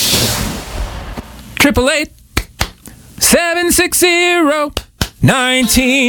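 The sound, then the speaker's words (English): A few sharp hand claps dropped in as a sound effect on a radio show, crisp isolated smacks between bursts of voice. “I don't know why I added clapping either.”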